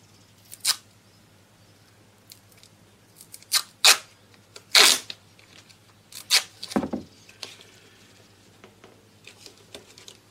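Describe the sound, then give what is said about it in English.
Gaffer tape ripped and pressed down around a dished bicycle gear to close the gaps of a mould: a few sharp tearing bursts, separated by quiet stretches and faint handling noises. “So we've got the dished side here, and that goes on the dished side, and we gaffer tape it down so there's no gaps.”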